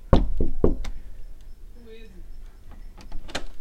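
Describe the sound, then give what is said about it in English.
Knocking on a door: a few sharp, loud raps come in a quick burst at the start, followed by a stretch of quiet and then another brief knock near the end. “Go back out and knock on my door.”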